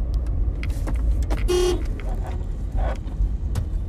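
A bus horn gives one short, loud, steady-pitched honk that cuts above continuous road traffic noise.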